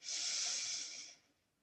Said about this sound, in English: Breathe in. And breathe all the way out. Have a breath here.